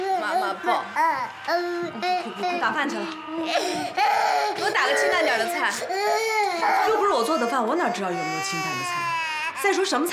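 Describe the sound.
A baby cries loudly and persistently, with wavering, wailing sobs and whimpers running throughout. Speech is mixed in with the crying.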